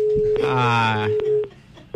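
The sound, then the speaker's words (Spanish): Telephone busy tone after a dropped call: a steady, unbroken electronic tone runs through the whole clip, with a voice briefly sounding over it partway through. “Ahí está, se queda la llamada. Es el problema del teléfono.”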